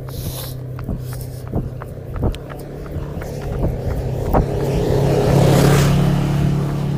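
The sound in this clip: The engine of a small four-wheeler, like a dune buggy, drones as it drives down a road, a rough, buzzing motor that grows louder toward the end, with scattered sharp clicks along the way.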